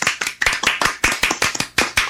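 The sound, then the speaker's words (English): Audience applause for a female guest: a steady run of quick, sharp hand claps at a fairly even rhythm, moderately loud and with no talking over it. “Let's give her a hand. Come on.”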